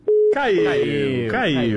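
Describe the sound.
A short, steady mid-pitched telephone tone sounds after a dropped call, then a voice talks over it.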